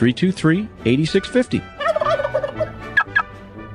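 Turkeys gobble loudly in rapid, warbling bursts, several calls overlapping and repeating throughout with no pause and no talk.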